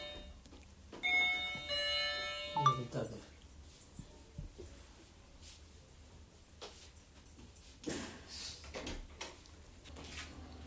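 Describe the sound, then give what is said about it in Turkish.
A doorbell chime rings near the start, a short bright tonal ring. People then talk, with scattered knocks and shuffling. “biz kaydımızı duyduğunuz bu zil sesiyle bitiriyoruz.”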